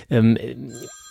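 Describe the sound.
A telephone rings, its steady, high electronic tone entering briefly at the end as a voice finishes speaking.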